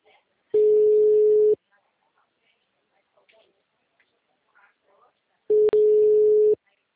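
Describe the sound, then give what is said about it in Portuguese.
Telephone ringback tone heard while placing a call: two steady, mid-pitched beeps about a second long each, separated by a long quiet gap with only faint scattered noises. “Mas está chamando.”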